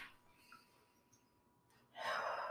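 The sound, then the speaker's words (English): A person takes a deep breath during a guided breathing exercise: a single loud, airy inhalation rises abruptly after a stretch of near silence and fills the final half second. “Let's take a deep breath.”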